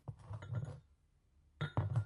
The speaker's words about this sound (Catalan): A veure, posa la lent damunt la taula.